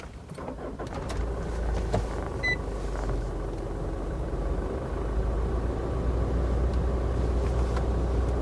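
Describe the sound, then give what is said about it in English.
A vehicle engine starts and keeps running with its air blowing: a low rumble builds after the first second and then holds as an even, steady drone to the end. “I'm just going to start the vehicle and run the,”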